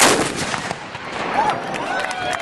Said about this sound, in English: Every 4th of July since, the cannon gets pulled out, paraded through town, and fired three times.